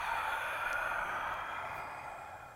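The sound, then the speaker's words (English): A long, open-mouthed exhale, as if fogging a mirror, during a forward-fold stretch: a steady, soft breathy hiss that holds for a couple of seconds and then gently fades. “Exhale, fold forward, fog the mirror.”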